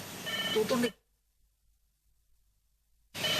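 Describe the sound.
A telephone rings with an incoming call to a radio studio: a brief electronic ring tone, then near silence until sound returns.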